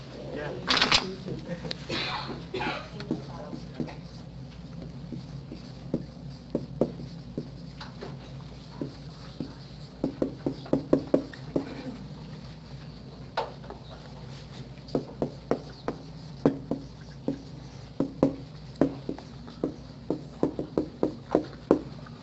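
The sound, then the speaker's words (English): Writing on a board: many sharp taps and scratchy strokes, some quick and clustered, recur throughout while a person keeps talking. “Could you write it on the board, Father? Sure.”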